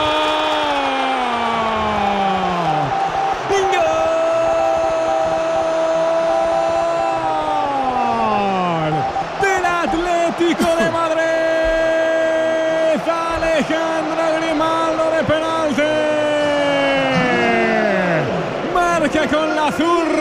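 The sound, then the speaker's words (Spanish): Stadium crowd roaring after a penalty goal in a Madrid derby against Real Madrid, a sustained loud wash of noise laced with whistling and falling horn-like tones that runs unbroken throughout. “celebrándolo ahora con la grada que estalla”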